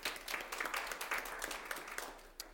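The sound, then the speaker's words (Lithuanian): Audience applause welcoming a mentor and facilitator at a talk event. The clapping is faint and steady, dense throughout, with a single sharper clap near the end as it thins out. “Plojimai jai.”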